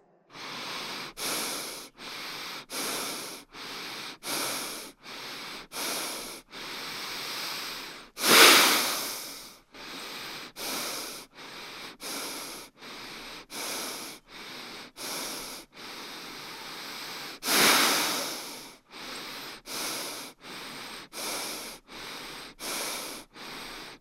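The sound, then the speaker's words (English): Rhythmic breathing in and out through the nose: many short, even, hissing breaths in a steady pulse, broken twice by a longer, fuller breath. “now we're going to do the 4 rhythmic breaths and 1 long full breath, but this time through the nose.”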